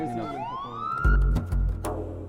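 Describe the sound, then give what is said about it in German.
A police siren wails and sweeps upward in pitch as police advance in Bahrain, with a heavy low rumble and a few sharp noises joining partway through. “Hören Sie die Sirenen? Die Polizei rückt vor.”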